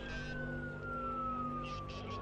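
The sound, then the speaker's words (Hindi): Ambulance siren sounding faintly: a wailing tone glides slowly downward in pitch beneath steady background noise, with brief bursts of other noise near the start and end. “Ambulance को आगे आने दो, side से हो जाओ।”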